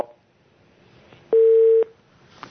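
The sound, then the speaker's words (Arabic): A telephone beep as a caller's line drops, one steady mid-pitched tone about half a second long over faint hiss. “فقد الاتصال. طيب نتصل ان شاء الله.”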